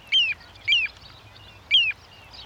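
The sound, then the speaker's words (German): A little ringed plover calls on gravelly ground by a riverside meadow, giving three clear, high whistled notes that each slide downward in pitch, spaced apart over a faint low hum. “den Vogel der Woche, den Flussregenpfeifer”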